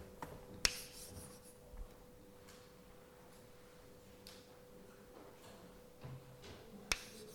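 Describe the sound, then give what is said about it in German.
Faint scratching strokes of writing on a board during a lecture, with a couple of sharp taps and a steady low hum underneath, and no talk. “Jetzt schreibe ich als nächstes das Dipolmoment auf”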